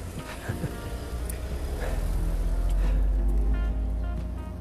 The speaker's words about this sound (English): The car stopped and I've stopped.